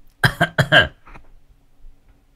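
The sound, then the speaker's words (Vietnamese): Harsh coughing from someone with a hoarse throat after drinking a lot of iced water in hot weather: a quick run of a few rough bursts, then a fainter one and quiet. “Mấy hôm vừa rồi trời nó nóng, uống nước đá nhiều quá, ho khanh khạch.”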